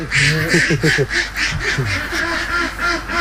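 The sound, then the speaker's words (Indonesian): Ducks quacking in a pen that holds about a thousand laying ducks, many loud nasal quacks overlapping in quick, uneven bursts that continue throughout without a break. “Untuk satu kandang seperti ini, biasanya kapasitas bebeknya mencapai 1.000 ekor bebek.”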